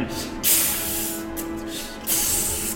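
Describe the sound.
Steam hisses as a sound effect for red steam rising from a figure encased in solid ice. The sharp, airy hiss runs continuously and swells louder in two bursts.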